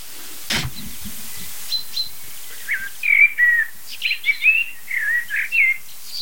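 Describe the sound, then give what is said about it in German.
Common chaffinch gives repeated sharp, high "pink-pink" calls, many short metallic notes in quick succession after a quiet start, with a single dull knock early on. “Wir hören jetzt zum Beispiel die Pink-Pink-Rufe vom Buchfink.”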